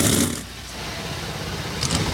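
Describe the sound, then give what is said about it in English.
Thirty-six ethanol-fuelled NASCAR Cup Series stock car engines firing up together before a race, a dense, loud, continuous roar with slight swells at the start and end. “And with that, 36 NASCAR Cup Series engines come to life.”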